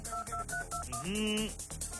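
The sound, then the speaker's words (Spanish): A telephone number being dialed: a quick run of several short keypad beeps, followed by a longer sustained tone. “Tenemos la siguiente llamada. Venga, pues, vamos a marcar.”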